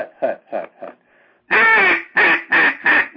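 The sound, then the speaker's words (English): A duck call blown at a calling clinic produces a few soft, clipped quacks. A pause follows, then a louder run of four raspy quacks, the first one drawn out and the rest short and evenly spaced. “Now, if you want to stretch that first quack out into like quack, quack, quack, quack, quack, just say 1, 2, 3, 4, 5. See, and it'll come out. Quack, quack, quack, quack, quack.”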